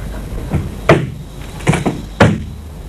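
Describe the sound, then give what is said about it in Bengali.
Wooden clunks and knocks of a door being opened: three sharper thuds with a couple of lighter taps between them, each fading quickly against a quiet background. “ঠিক আছে, দরজাটা খুলে দাও তুমি”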